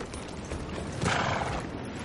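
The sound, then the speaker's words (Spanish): Horses arriving on a narrow cove: a short, steady wash of hoofbeats blended into broad noise, moderately quiet and without speech. “Llegan a caballo a una estrecha cala.”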